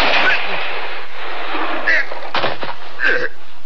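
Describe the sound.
A gunshot rings out in a standoff after a slow count to three, its sharp crack breaking through a dense, noisy wash that runs the length of the moment.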